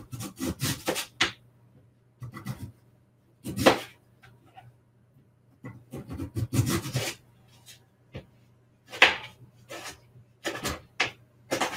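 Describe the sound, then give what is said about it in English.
A knife cuts half of a sweet potato into very thin slices for fries, giving many short, crisp scraping strokes in an uneven rhythm with brief pauses between cuts, fairly faint and alone. “I'll just do half of this sweet potato in really thin slices.”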